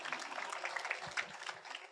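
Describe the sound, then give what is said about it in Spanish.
Brief, faint applause from a Spanish-speaking church class, a light patter of clapping with irregular sharp hand claps. “¿Estamos? Aplauso a los cananeos, digo a los...”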